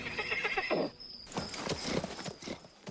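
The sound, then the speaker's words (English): Horses ridden slowly through a forest at night, with quiet clip-clop hoofbeats and a whinny. “Marion and Broomhilda slowly walk on horseback through the nighttime forest.”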